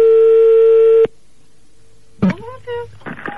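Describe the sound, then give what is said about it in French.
A telephone ringing: one steady, single-pitched tone lasting about a second stops abruptly, followed by a silent pause before a voice starts talking. “Attention, ça sonne.”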